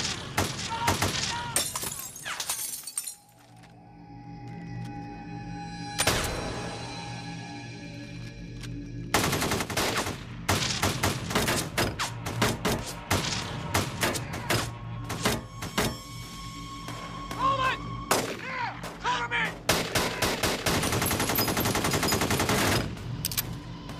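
Rifle gunfire with .223 rounds during a bank robbery shootout in North Hollywood: many loud, sharp cracks in rapid, irregular bursts and volleys, broken by brief pauses and continuing through the whole stretch.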